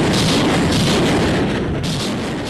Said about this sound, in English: A Ukrainian army brigade said on Sunday that it had fired Soviet-era Grad rockets toward Russian troops near Bakhmut.